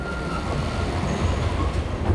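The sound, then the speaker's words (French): A mine cart rolling on rails makes a steady, low rumble with a faint, thin squeal riding over it, holding at an even level throughout. “Un chariot vient de s'arrêter tout près de nous.”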